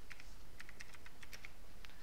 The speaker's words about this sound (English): I'll type it into the chat for you.